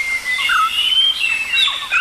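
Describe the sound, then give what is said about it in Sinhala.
Birdsong played from a bird song cassette: bright, high chirps and whistled phrases overlap in a steady stream, with short rising and falling notes throughout. “කුරුළු ගීතෙන් මේ කුරුල්ලන්ගේ ගීත රසක් අපි එකතු කරගෙන තිබෙනවා ඔබට අහන්නට දෙන්න මේ එයින් කොටසක් ඔබට ඇහෙන්නේ”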